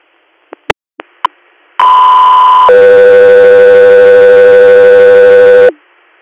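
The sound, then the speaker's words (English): Radio dispatch alert tones for an air medical callout in Susquehanna County, Pennsylvania: a few short clicks, then a loud steady tone of about a second that drops to a lower tone held for about three seconds. “stand by for Tones.”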